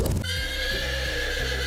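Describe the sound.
A horse whinnies loudly at a riding stable, giving one long, sustained neigh with a shuddering, pulsing texture that carries through the whole moment.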